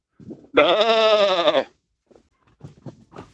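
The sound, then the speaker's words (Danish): A person imitates a sheep bleating with one long, loud, wavering nasal bleat. Brief, faint vocal sounds come before and after it. “Vi er enige om, at det var et får.”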